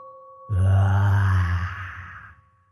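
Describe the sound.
Ghostly moaning groans from many voices, a low, drawn-out rumbling wail with a high hum above it, swelling loudly for about two seconds and then fading away.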